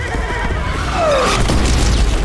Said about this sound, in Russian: Снаряд попадает в стену крепости, летят кирпичи.